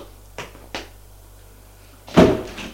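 Two light knocks on an office door, then after a short pause the door opens with a louder, sharper thud and a brief scrape.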